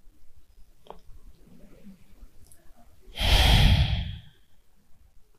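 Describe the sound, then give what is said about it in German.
A single deliberate exhale during a guided breathing exercise, a long, loud, breathy rush of air that swells and fades over about a second after a few seconds of near silence with faint small noises. “Lass einmal mit dem nächsten Ausatmen ganz bewusst los.”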